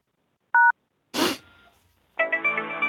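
A single short telephone keypad tone during a party line phone call, followed by a brief burst of noise and then a buzzy, pulsing tone.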